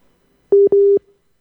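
A telephone call is dialled and tries to connect. Two short, steady, mid-pitched tones sound in quick succession, clear and alone against silence.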